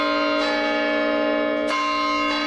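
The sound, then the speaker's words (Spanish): Bells of Pachuca's monumental clock tower, a stone tower over a century old, ring out in three clear strikes whose bright metallic tones hum on between strokes. “Bueno, así suena el campanario de Pachuca.”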